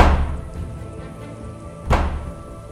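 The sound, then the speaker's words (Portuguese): A hand knocks on a hollow object, making one dull, low thunk against quiet background noise, with the tail of an earlier thud fading away at the very start. “Com a mão mesmo, assim, tipo, dá umas batidinhas.”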